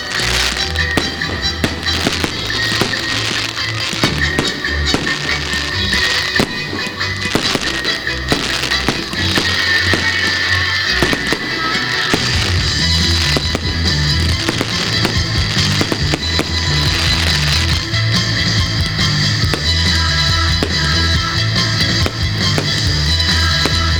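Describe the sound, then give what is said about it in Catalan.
A wooden festival fire castle burns as its fireworks catch, giving dense, unbroken crackling and popping with many sharp snaps over a deep rumble. The loud crackle continues for the whole stretch, and the castle is made of firm material that burns slowly. “costa molt de cremar aquest castell. Es va encenent. Però és de material ferm.”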